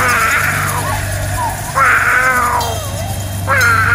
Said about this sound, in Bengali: কালো বিড়ালটা ল্যাজ তুলে ক্রমাগত ডাকতে লাগলো।